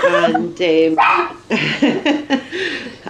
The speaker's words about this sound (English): just really looking forward to the dog stopping barking